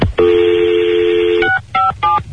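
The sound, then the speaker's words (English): Telephone keypad dialing tones: one long, steady tone followed by a few short, evenly pitched beeps, loud and clear, with no voices. “It's ringing now. Trying to call the Harry Potter line.”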